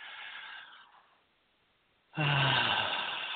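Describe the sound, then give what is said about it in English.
A deep breath taken during a guided breathing exercise: a soft, airy inhale tapers off into a brief silence, then a strong, steady exhale rushes out and holds, with no speech. “everyone take a deep breath with me.”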